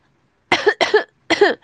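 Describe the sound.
Harsh coughing from a person chatting during a looting game, a few rough bursts in quick succession with short pauses between them, loud and with no talk over them.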